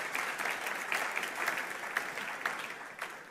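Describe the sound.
Applause from an audience congratulating someone on his birthday: a steady patter of many hands clapping together, fairly faint, holding evenly throughout with a few sharper claps standing out.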